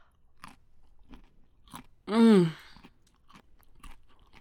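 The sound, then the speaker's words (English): Chewing on a chocolate chip cookie: faint, crunchy bites recur throughout, and a short voiced murmur of appreciation stands out midway. “Yeah, that is like the best chocolate chip cookie I've ever tasted.”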